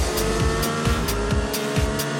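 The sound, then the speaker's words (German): Roaring race-car engines at the start of a video game race: a loud, steady drone with strong low engine tones and a few sharper bursts, with no talk. “Das Rennen startet in 3, 2, 1, go!”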